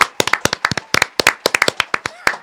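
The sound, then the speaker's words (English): An artificial audience clapping effect plays alone. It consists of many sharp, distinct hand claps in an uneven, sparse pattern, like a small group applauding, with no talk over it. “You know what I love about the digital space? When you can't afford a real live audience, you just make one.”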